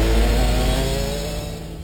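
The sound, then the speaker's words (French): A bioethanol-fuelled go-kart engine at full throttle down a karting-track straight gives a loud, buzzing drone rich in harmonics. It holds strong throughout and eases off slightly toward the end. “Prenez le volant des kartings fonctionnant au bioéthanol. À fond dans la ligne droite.”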